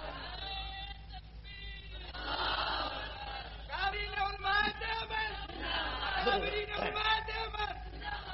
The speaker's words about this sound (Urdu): نعرہ نہ لگا, میں پہلے کہا وقت میرے پاس نہیں ہے